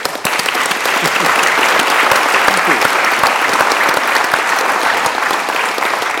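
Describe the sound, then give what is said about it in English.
An audience applauds to welcome a speaker: loud, dense, steady clapping from many hands that holds throughout without fading. “So please, just to show a bit of kind of energy, let's welcome Charles Wookie.”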